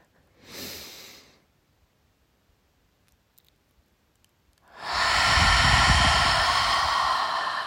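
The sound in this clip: Deep breaths drawn in during a guided relaxation breathing exercise: a short, breathy rush of air, a quiet pause, then a long, loud, sustained inhale that continues to the end.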